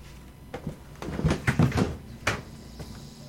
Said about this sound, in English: what I'm doing here is that I'm prying the archive open with my fingers.